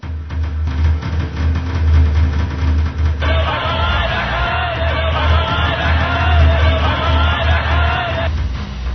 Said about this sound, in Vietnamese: phía ngoài người ta la nghe càng lớn, mà lại nghe có tiếng trống vang vậy.